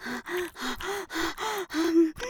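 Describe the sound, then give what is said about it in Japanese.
Deep, voiced exhaling breaths of a person exercising, a steady rhythmic series of short breathy pushes with a slight vocal tone, each separated by a brief pause, without talk. “大きめに息吐いてるの。”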